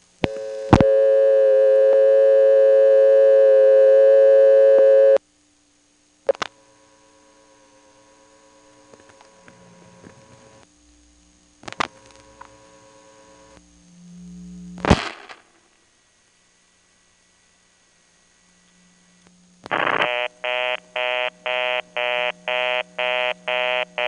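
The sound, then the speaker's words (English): Telephone reorder tone from the Coleridge exchange: a rapid, evenly pulsing buzzy tone with many short bursts near the end, after a long steady tone, a few clicks and brief silences. “Oh, that was a phone company test line. Here's the Coleridge reorder.”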